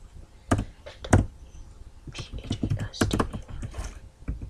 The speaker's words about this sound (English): now I'm gonna type